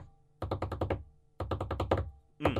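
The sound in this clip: A hand bangs on a table to imitate the drum section of a metal song: two rapid runs of several evenly spaced, hollow thumps, a short gap between them, and a third run starting at the end.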